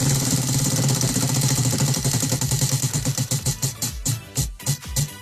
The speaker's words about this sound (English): Shall we spin the Wheel of Deals? Yes, let's do that.